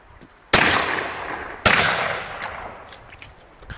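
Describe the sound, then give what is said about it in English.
Two loud, sharp gunshots from a soldier firing aimed shots one at a time, loading each round from a pouch. They are about a second apart, and each has a long, fading, rumbling decay. “Loading from the expense pouch, ladies and gentlemen. Each shot in the soldier's own time, taking careful aim for each shot.”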